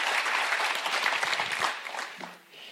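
An audience claps steadily to welcome a guest preacher, a dense, even wash of applause that thins out toward the end.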